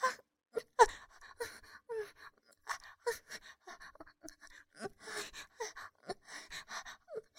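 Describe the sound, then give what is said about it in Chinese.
Quick, faint panting breaths, many short irregular inhalations and exhalations in close succession, with brief gasping peaks, and no talk alongside them. “怎么呼吸变弱了呀？越来越急促。”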